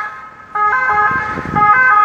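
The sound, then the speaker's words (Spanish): An ambulance siren passing by sounds a loud, two-tone electronic wail that starts abruptly after a brief quiet moment. Its bright, harmonic-rich tones alternate steadily and stay prominent to the end. “A ver qué pasa la ambulancia.”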